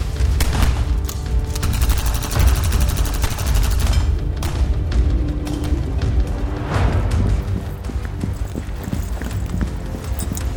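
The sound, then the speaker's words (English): Covering gunfire in a futuristic combat firefight: loud, dense bursts of rapid shots and booms over a low rumble, continuing without pause throughout. “Covering fire. Spread out! Move.”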